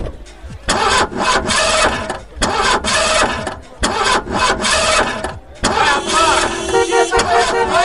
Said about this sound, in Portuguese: 300 cavalos. Vai de 0 a 100 em menos de 6 segundos. Aí eu não acredito, você tem uma igualzinha do Magnum. Ai meu Deus, eu sempre quis andar numa máquina dessas.